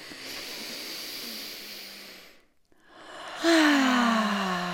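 A person breathing out slowly during a breathing exercise: a long, soft breathy exhale, then a short silence, then a louder breathy breath returns carrying a faint voiced tone.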